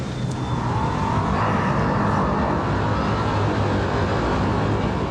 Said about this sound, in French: Bon, bah quand tu veux, j'appuie sur start. Alors, je te fais un décompte, tiens. 3, 2, 1, go! Le launch, il marche.